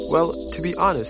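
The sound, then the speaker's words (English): Cicadas buzz in a steady, high-pitched drone that pulses rapidly and evenly throughout, while a person talks over it. “This is the sound of cicadas buzzing.”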